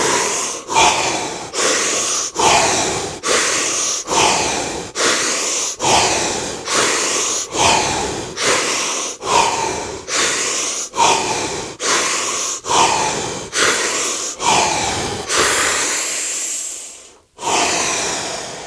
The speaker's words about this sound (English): 11 breaths.